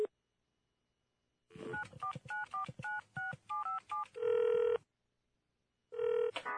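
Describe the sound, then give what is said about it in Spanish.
Telephone dialing and ringing: a rapid run of short touch-tone beeps, then two longer buzzing ring bursts separated by a pause of about a second, with silence on either side. “voy a llamar a José.”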